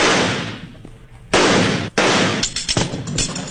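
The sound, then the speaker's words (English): Gunshots fired at the handle of a bank vault: several loud, sharp blasts with ringing decays, the later shots arriving in a quicker, tighter cluster. “Stand back. I think I can shoot that handle off.”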